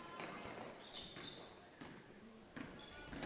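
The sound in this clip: Basketball dribbled up the court during a women's college game, a few rubbery bounces thudding at an uneven rhythm beneath continuous commentary and background arena noise.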